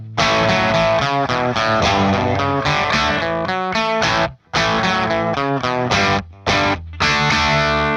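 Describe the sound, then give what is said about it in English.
Gibson SG Custom electric guitar fitted with Gemini Mercury 1 humbuckers, played straight into a Marshall amplifier: loud, crunchy, driven chords and riffs with a few brief stops, heard alone without talk. “the first example is just the Marshall and the Gibson SG. I have an SG Custom with Gemini Mercury 1 humbuckers in it.”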